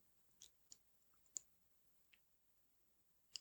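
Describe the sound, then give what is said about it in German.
Spine cracking while sitting cross-legged and straightening up: a few faint, sharp clicks at irregular intervals over a near-silent background. “So, jetzt hat es auch in der Wirbelsäule geknackt.”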